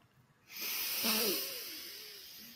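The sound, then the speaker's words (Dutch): Breathing exercise in which air is pushed out through one nostril: a steady, airy nasal hiss begins after a short quiet start and holds fairly loud to the end, fading slightly, with no talk. “Dan links snuiten, uitademen rechts. En dan weer inademen links.”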